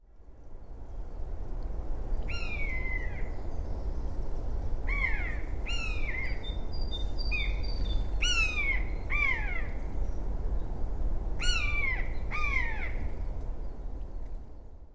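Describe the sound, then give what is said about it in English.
A common buzzard gives its mewing kew call: a series of clear, high whistles that slide downward, often in quick pairs, spaced over a steady low rumble of background noise. “The buzzard's mewing "kew" is a familiar sound in hilly country and farmland in Britain as it soars effortlessly, rising on a thermal of warm air.”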